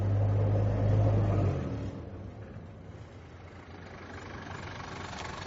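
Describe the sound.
A taxi's engine runs with a low, rumbling idle. It is louder for the first second and a half, then settles into a softer, steady drone.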